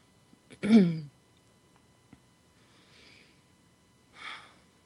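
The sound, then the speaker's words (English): A deep breath taken during a guided centering exercise: a loud, slightly voiced inhale near the start, then a faint breathy stretch, and later a softer airy exhale. No one speaks. “Take a nice deep breath.”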